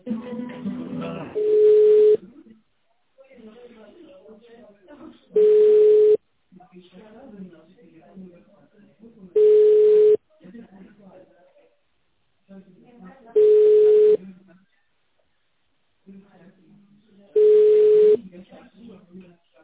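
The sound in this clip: Telephone hold tone during a call transfer: five steady, identical tone bursts come at a regular rhythm about every four seconds, with faint murmured voices and line noise in the gaps between them.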